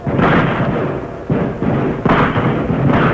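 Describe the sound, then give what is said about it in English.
Gunfire in a radio drama battle, with only one side still shooting, comes as a few heavy booming bursts over a continuous low rumble, each burst striking suddenly and then fading. “Hey, man, that's a real fight. Yes. Looks like only one side is doing the shooting now, though.”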